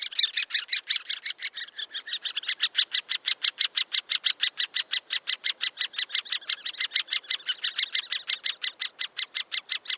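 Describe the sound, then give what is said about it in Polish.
Great spotted woodpecker nestlings beg for food from a tree hole carved in an alder, giving a fast, steady stream of many high, buzzy calls that repeat without a break and stay loud throughout. “Otóż najpierw usłyszeliśmy głos żebrania piskląt wydobywający się z dziupli wykutej w olszy. Wołające o pokarm małe dzięciołki duże brzmią tak.”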